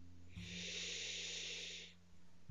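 A single long, deep breath drawn during a relaxation exercise, a steady airy hiss lasting over a second and a half and then fading, with a soft, constant low hum underneath.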